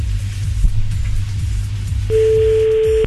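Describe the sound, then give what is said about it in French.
A telephone ringing tone on the line: a single steady, high beep starts partway through and holds to the end over a low, rumbling hum. “On y retourne, on rappelle. Ah, elle veut plus décrocher, là. Eh, non. Ça sonne.”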